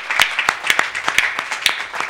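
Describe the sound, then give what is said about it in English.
A church audience claps hands in praise during a worship service. Many sharp, bright claps land at an uneven pace, loud and without voices. “Let's all give the Lord a hand clap of praise.”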